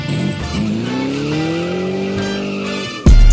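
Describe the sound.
Car tires squeal while burning rubber, a loud prolonged tonal screech that wavers, then holds steady for nearly three seconds before cutting off into a sudden loud hit.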